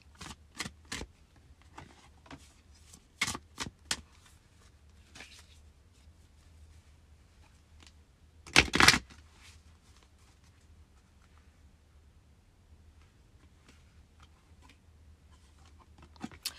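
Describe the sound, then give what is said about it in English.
Goddess oracle cards being handled and shuffled: scattered light taps and flicks, with one brief louder rustling burst midway, set against near silence. “I'm going to pull a goddess oracle card for us.”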